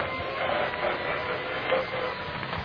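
An elevator starts up with a steady mechanical whirring hum that holds at an even level throughout, with slight swells and no voices.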